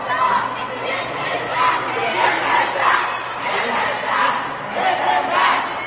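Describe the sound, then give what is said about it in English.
A protest crowd shouts and chants in unison with steady, rhythmic swells of massed voices, while scattered chatter runs beneath. “give him back, give him back. They're screaming, F you.”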